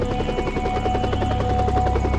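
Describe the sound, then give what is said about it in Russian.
A helicopter approaching, its rotors beating in a fast, steady, rhythmic chop over a heavy low engine drone that holds at a fairly constant loudness throughout. “Рокот винтов становился все сильнее.”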